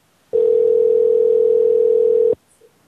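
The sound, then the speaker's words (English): Ringback tone heard while phoning a driving school: one steady, even two-second ring tone that sounds alone, followed by near silence. “Yeah, probably gotta just go ahead and hang up. Let's see if they get a voicemail though. Could leave a voicemail if it goes to that.”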